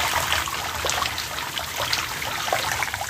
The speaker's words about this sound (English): Now when I rinse off, I rinse that one.